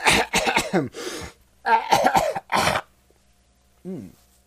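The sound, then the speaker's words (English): A coughing fit brought on by dust produces harsh, loud coughs in two quick clusters separated by a short pause. A brief voiced throat sound follows after a quieter gap. “I'm dealing with, excuse me. I'm sorry. I've got dust from China.”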